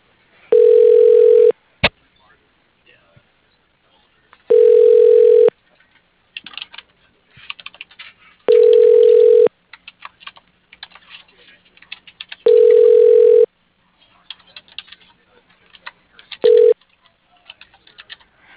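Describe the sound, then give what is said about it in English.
Telephone tones as a call is transferred through to a voicemail line: five steady tone bursts at regular intervals, the last one short, with scattered light clicks in the gaps between them. “That would be awesome if you could transfer me over. All right, I'll send you up there now.”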